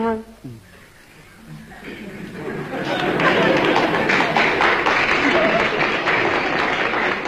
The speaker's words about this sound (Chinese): 那这鼓掌的人不多呀，鼓掌的人都是南方人。